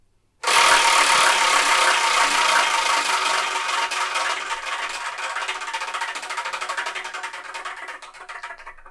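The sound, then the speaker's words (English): A prize wheel is spun to pick a number: a dense clicking rattle starts abruptly and loudly, then thins out and fades steadily over about eight seconds as the wheel slows. “What I've done is I've assigned a manga to each of the slots, and we're going to spin that wheel.”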